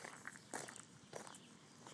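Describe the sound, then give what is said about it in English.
Footsteps on a walking trail, a few soft crunching steps at an uneven walking pace, quiet and alone. “And so just walking, this was a portion from Linwell Road, and I'm going to walk off the next road and go through”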